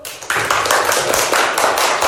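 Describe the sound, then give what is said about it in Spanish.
Applause from a group greeting mothers, with many hands clapping in a dense, steady patter that continues throughout. “Un saludito con el aplauso.”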